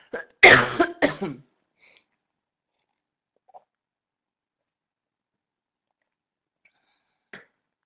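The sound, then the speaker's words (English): Short bout of coughing: a few harsh, raspy bursts close together at the start, followed by near silence with only a couple of faint small noises. “So let me get a drink of water and cough.”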